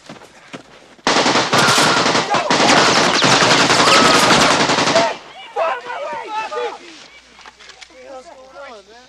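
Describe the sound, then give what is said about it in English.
Rapid automatic fire from an AK-47 assault rifle, one loud, dense, unbroken burst lasting about four seconds, after which voices are heard. “This is the AK-47 assault rifle, the preferred weapon of your enemy. And it makes a distinctive sound when fired at you, so remember it.”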